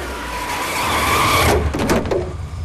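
A car skids and spins to a stop with a loud, sustained screech of tires that cuts off partway through. A few scrapes and thuds follow as the noise fades.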